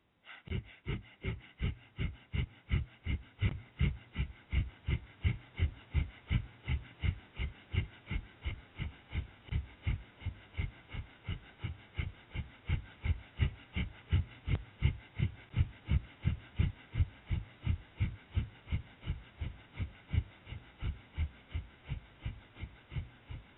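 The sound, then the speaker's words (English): Rapid breath of fire yoga breathing: many quick, forceful nasal puffs in an even, driving rhythm, each one short and evenly spaced, holding steady throughout with no talking. “Breath of fire, 1 minute.”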